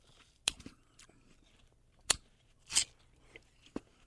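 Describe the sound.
Bites into a pretty watermelon: a few quiet, sharp crunchy snaps spaced irregularly, with soft wet chewing between them over a faint background.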